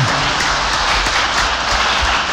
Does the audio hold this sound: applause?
yes